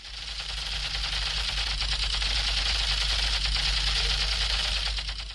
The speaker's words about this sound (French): As you can see, I'm using my Kalashnikov gun to shoot and kill enemies.